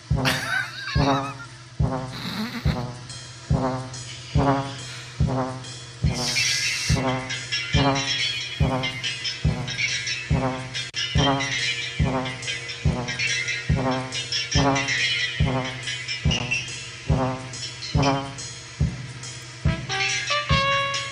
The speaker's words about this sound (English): But that was the sound of what they call them. They call them quadrators, musical flying robots. Well, they're actually flying robots that happen to be playing music.